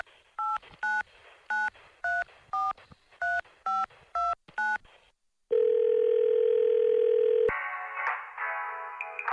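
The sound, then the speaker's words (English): Telephone number being dialed: a quick, evenly spaced series of short touch-tone beeps, then a long steady held tone, then a harsher buzzing tone that runs to the end. “So let's dial.”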